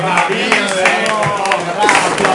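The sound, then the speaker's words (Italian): An audience claps for a band just introduced in a radio studio, a brisk, uneven patter of hands that runs under people talking over it. “Hai gente che applaude perché finalmente...”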